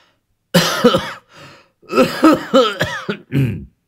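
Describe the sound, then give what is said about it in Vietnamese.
Hard, hacking coughs from an old man, a run of harsh, voiced bursts that come loud and close together with a short lull near the start. “Ông cụ đấm ngực ho sù sụ.”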